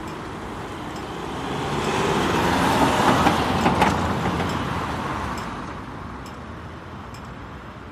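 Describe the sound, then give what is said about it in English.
A car passes, its broad rushing roar swelling to a peak and then fading away. After it, a traffic light signal ticks a few faint, regular clicks like a metronome. “So the last was car with the hanger, and at the very end you hear the ticking like a metronome of the red light.”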